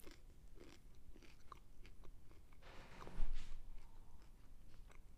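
Faint, steady chewing of crunchy food reheated twice in a microwave: many quick crisp crunches in an irregular rhythm, with one louder burst of crunching partway through and no talk.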